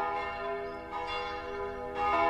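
Church bells ring with a few repeated strikes about a second apart, each blooming into rich, sustained metallic overtones that hang and blend together at a moderate, steady level.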